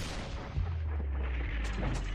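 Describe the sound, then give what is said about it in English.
Heavy artillery guns fire concentrated barrages, heard as a dense, continuous low rumble of overlapping booms. The sound stays loud throughout, with no clearly separate shots. “The big guns, the heavy artillery attempting to punch open the line while suppressing enemy batteries with concentrated fire.”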